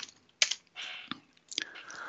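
Someone types a command on a computer keyboard in a few quick, irregular bursts of soft clicking keystrokes, quiet and separated by short pauses.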